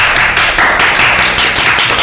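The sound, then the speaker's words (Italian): Applause in a studio, a loud, dense patter of many clapping hands sustained evenly for about two seconds, with no voices over it. “Facciamoci un applauso.”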